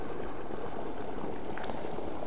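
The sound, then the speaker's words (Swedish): A stream of clean lake water rushes past pasture fields, a steady, dense hiss and roar that holds unchanged throughout. “Och här forsar vattnet också faktiskt här. Här forsar alltså vattnet.”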